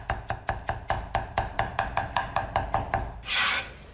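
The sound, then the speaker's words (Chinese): A knife chops garlic cloves on a cutting board in many quick, evenly spaced strokes, followed by a brief rasping scrape at the end. “准备大蒜几颗拍散剁碎备用”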